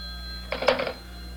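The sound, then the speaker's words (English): A telephone on a private line in a house gives one short, bright ring lasting under half a second over a steady low hum. “Oh, let one of the servants answer, dear. Well, it's ringing on the private wire.”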